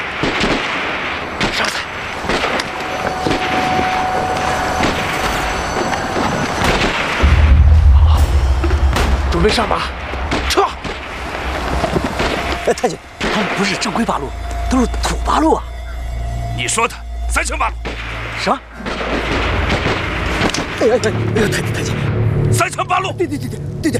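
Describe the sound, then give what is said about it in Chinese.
Gunshots fired during a wartime skirmish: many sharp booming cracks and deep thuds scattered throughout, while several people shout and talk over the noise. “咱也打几枪，吸引他们出来。”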